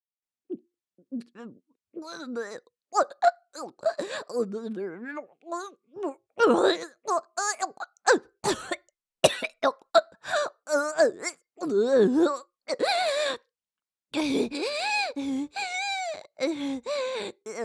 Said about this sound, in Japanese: 吐いてしもうた。